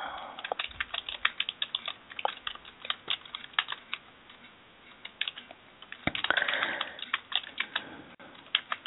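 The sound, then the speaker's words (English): Computer keyboard typing: many irregular, quiet key clicks in uneven bursts and pauses, with no talking. “And I am typing, and I cannot talk and type at the same time.”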